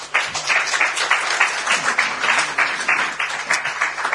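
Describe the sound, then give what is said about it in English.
Audience applause welcoming a speaker, dense and steady clapping from a crowd that holds at an even level throughout without breaking. “So would you please put your hands together and welcome Jeremy Marshall.”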